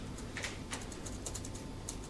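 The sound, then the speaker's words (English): A few soft, sharp clicks from a computer as someone clicks back to a presentation, spaced irregularly over a low, steady background hum. “I'm going to just click back to the presentation”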